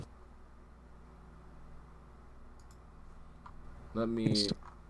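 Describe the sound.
A computer mouse clicks a few faint times, then a louder, short cluster of clicks sounds near the end over a low steady hiss.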